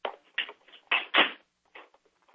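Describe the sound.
Typing on a keyboard during dictation: irregular clusters of clicky keystrokes separated by brief quiet gaps, fairly soft overall.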